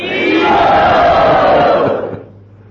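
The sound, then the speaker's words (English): A crowd welcomes a visiting religious teacher by calling out "Hari Bol". Many voices join in one loud, sustained collective shout that lasts about two seconds and then fades away. “Let us welcome him by saying Hari Bol.”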